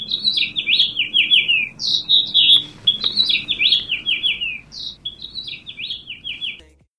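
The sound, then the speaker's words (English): House finches sing from a nest on an outside speaker at a radio station, giving bright, high, warbling phrases that repeat almost without a break, fairly loud and with no voices over them. “house finches are common from coast to coast today, and they have joined us at the Pantorium nesting on an outside speaker here at the station.”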